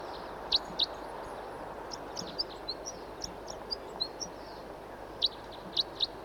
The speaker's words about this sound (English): Here's another bird who's also singing and calling.